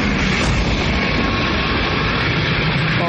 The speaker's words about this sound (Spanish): En el presente un avión pasa sobre el camión.